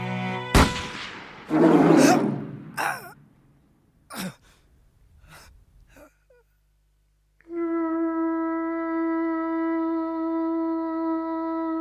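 One loud, sharp gunshot from a hunter firing at a female polar bear, followed by gasping, groaning vocal sounds and a few short noises, then silence and a steady tonal musical drone.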